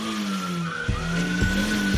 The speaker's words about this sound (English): Put it in drive. You're just revving the engine.